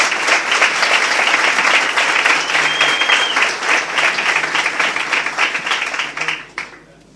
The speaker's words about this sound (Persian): دست بزنین.